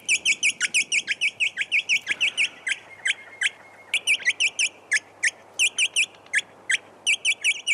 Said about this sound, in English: Tweet of the week. Yes, we're at Alice Springs on our virtual road trip up the Stuart Highway, and that's where you'd hear this tweeter.